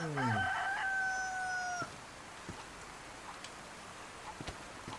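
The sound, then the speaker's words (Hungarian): A rooster crows in a video game: one long, quiet, held crow with a clipped ending, followed by a few faint scattered clicks over a low hiss. “Jó, ez nagyon jó hír, hogy vannak csirkék. Mert az megoldást jelent a kaja problémára.”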